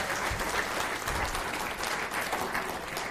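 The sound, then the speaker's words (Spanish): An audience applauds during a church sermon, with dense, steady clapping at an even level throughout the short stretch and no talk over it. “Dele un aplauso, Señor.”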